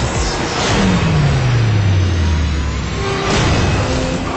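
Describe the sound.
A car engine revs hard as the car drives off, a loud, falling engine tone riding over a broad roar that holds steady to the end, with no voices.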